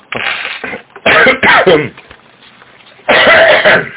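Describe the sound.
Coughing and throat clearing from workers whose throats are irritated by lubricant vapours and dust at their workplace: several loud, harsh bursts, two close together near the middle and a longer one toward the end, with a softer rasp at the start.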